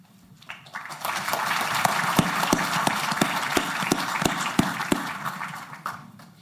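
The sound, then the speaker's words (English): An audience applauds to welcome a newly signed New York Jets player: dense, steady clapping that builds quickly, holds for several seconds, then tapers off. “I'd just like to have a round of applause right there.”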